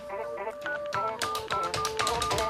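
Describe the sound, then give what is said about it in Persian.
A telephone call being dialed: a quick run of short electronic keypad tones at shifting pitches, soft and steady, with no clear ring following. “یک بار زنگ بزنیم، زنگ بزنیم یک بار.”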